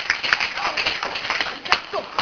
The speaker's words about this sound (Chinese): 哦，再跟他拍手一下。好，来。